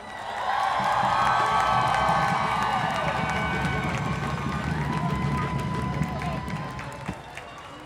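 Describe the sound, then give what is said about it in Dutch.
An audience at an International Women's Day feminist march cheers and claps for performers, with sustained whoops and shouts over dense clapping that swells early, then slowly thins and quiets toward the end. “Geef ze een warm applaus.”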